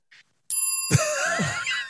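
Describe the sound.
A bright notification bell chime sounds once after a brief, faint tick, then rings out with a long, shimmering, sustained tone.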